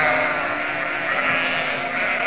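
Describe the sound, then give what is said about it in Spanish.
Sheep bleating as small flocks gather into a large shared corral in hill country, a dense, continuous mass of overlapping calls with no pauses. “Desde el cerro ven cómo los pequeños rebaños de ovejas se van juntando en un gran corral que tienen los pastorcitos del lugar.”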